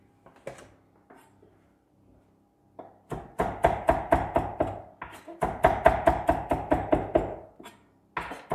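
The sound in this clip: A knife chops fresh parsley: a few scattered taps at first, then long runs of quick, steady, fairly loud chops with no talk.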